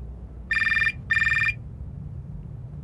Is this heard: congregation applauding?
no